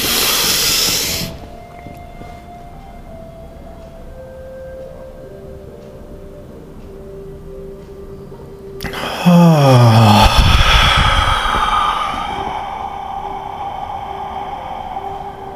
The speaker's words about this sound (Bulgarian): можеш да си поемеш дъх и да го задържиш за няколко мига